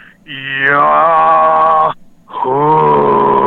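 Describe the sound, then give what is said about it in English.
A voice imitates a loud, powerful, low guttural yahoo yell, distinct from coyote calls: two long, drawn-out vocal calls separated by a short pause, the first sliding down from a higher pitch before holding steady. “loud Yahoo sound. Like, I'll try to do an impression, although it'll sound horrible, but it was like you had the high pitch of the coyotes, and then you hear this”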